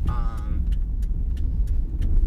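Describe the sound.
A car is driven slowly into a parking spot, a low, steady engine rumble with a few light clicks, and a voice speaks briefly at the start.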